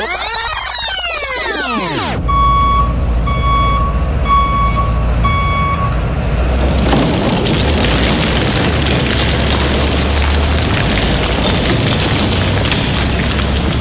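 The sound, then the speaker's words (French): A ten-wheeler truck in a parking lot: a steady series of high reversing beeps over a loud engine rumble, then a heavy, continuous roaring rush of noise that stays loud to the end. “peux-tu bien me dire pourquoi il y a un 10 roues dans le stationnement?”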